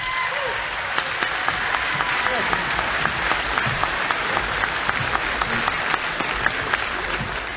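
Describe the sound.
A crowd applauds a musician as he is brought on stage, a steady, dense wash of clapping that holds at an even level throughout with scattered sharper claps.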